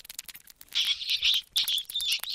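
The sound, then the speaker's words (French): High-pitched squeaks from a pet gerbil in its cage in a classroom. They come as two long, fluttering bursts of thin, bright squeaking, one after the other, with short gaps and no talk. “Coucou petite gerbille, est-ce que c'est bien d'être tout le temps dans une école ? Que fais-tu dans ta cage toute la journée ?”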